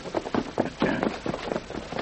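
Horses galloping through hilly country, hooves pounding in a quick, steady rhythm of many muffled thuds that stay fairly even in loudness throughout.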